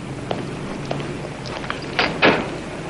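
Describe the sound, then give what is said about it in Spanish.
A red door is unlocked with a key and opened: a few light clicks, then two louder clunks close together near the end, with no talking. “Hooker ante una puerta roja, saca la llave y entran”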